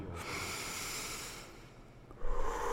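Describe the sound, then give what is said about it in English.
A soft, airy breath drawn in deeply, then a big exhale, with a short, stronger puff of air near the end, all fairly quiet. “Breathe in the new year, and with a big exhale, let out the old one.”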